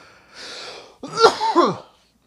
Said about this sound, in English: it's always when I'm doing these podcasts that I start coughing